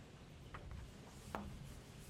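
Faint scratching strokes of a diagram being sketched by hand during a lecture on a tank experiment: a few short, soft marks scattered over a quiet background.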